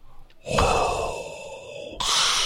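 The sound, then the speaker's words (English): Breath is pushed onto a pair of eyeglasses: a long, hoarse, breathy huff that trails off, then a second forceful huff starts straight after it. “When you breathe on those glasses, though, you're not supposed to just breathe on one side at a time. Do both sides at once,”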